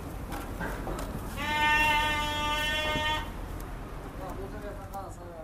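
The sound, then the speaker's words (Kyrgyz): Sheep bleating at a small livestock market in Bishkek: one long, steady, nasal bleat stands out above a busy, noisy background and then fades back into it. “Бишкектеги Баят деп аталган майда жандык саткан чакан базар. Жүнү тыккан кыркылган, семиз, куйрукту койлорду аралап соодалашкан кардарлардын аягы тыйылбайт.”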